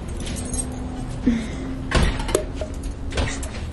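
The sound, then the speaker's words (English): A heavy school door shoved open with a shoulder gives a few dull thuds and knocks, with a rattling clunk of the latch and frame, fairly faint over a low background hum. “Actually, let's try this door right here. These doors are hard to open here at the school. I have to use my shoulder.”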